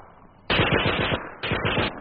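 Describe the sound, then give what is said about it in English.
Japanese gunfire in battle, sweeping over a pinned-down platoon: two loud bursts of rapid automatic fire, each a fast, even rattle of shots, separated by a brief pause, over a low background rumble. “He fell and lay there under the searching Japanese fire.”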